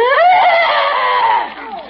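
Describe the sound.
A voice imitates a zombie that used to be a mummy, producing a loud, drawn-out, wavering wail that is tonal and eerie and fades off toward the end.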